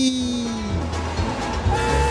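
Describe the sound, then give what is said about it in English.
A train departure sound effect at a themed railway attraction: a sustained tonal hum and rumble, with one tone sliding lower in pitch early on, and faint low knocks beneath, at moderate level with no talk. “Attention, please. Train now leaving on track 5 for Anaheim, Azusa, and Cucamonga. That's our train, guys.”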